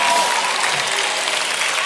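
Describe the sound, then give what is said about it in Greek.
Warm applause for a show's producer, a thick, even patter of many hands clapping, slightly louder at the start and holding steady to the end, with a voice briefly heard over it. “Ζεστό χειροκρότημα, είναι ο Γιάννης Οδόξας.”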